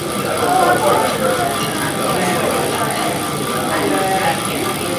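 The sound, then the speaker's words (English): A bicycle wheel spinning nonstop for around 18 hours during a marathon ride at a London cycle cafe, a continuous whirring hum over a low rumble, steady in level, with background voices. “The sound you can hear there is the sound of a spinning wheel, but it's not any old spinning wheel. It's a wheel that's been spinning for a long time, around about 18 hours,”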